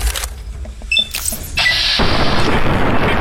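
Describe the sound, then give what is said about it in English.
Video-game gunfire as a player shoots at ants. A few sharp, loud shots crack out early, then a sustained harsh, noisy burst holds to the end, with no talk over it. “Okay, I've got 100 bullets. Maybe we're gonna go with guns here. More ants! Okay, I'm gonna shoot him in his little ant head.”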